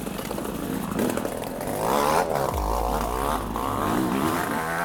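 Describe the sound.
A two-stroke motorbike engine struggles and rasps with its front pipe ripped out of the barrel, unable to change gear. The loud, rough drone wavers unevenly in pitch, with a deeper rumble joining partway through.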